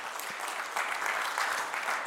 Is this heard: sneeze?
no